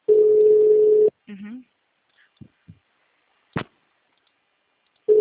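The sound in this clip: Ringback tone of a telephone call that nobody picks up: a steady, pitched tone lasts about a second, then comes a pause with only brief faint sounds, and the tone starts again at the end.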